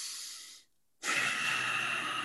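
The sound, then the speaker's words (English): Breathing from a frightened person about to go over backwards: a short airy breath, a brief silent pause, then a long steady exhale that runs on to the end. The breath is unvoiced, with no talking. “There's a really long exhale”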